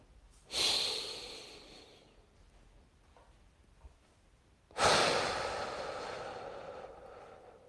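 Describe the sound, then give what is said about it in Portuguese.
Slow paced breathing: an audible breathy inhale followed after a pause by a longer, steady exhale, drawn out over about three seconds, with no talking. “Aí você vai para uma respiração de três segundos. E respira três, expira três.”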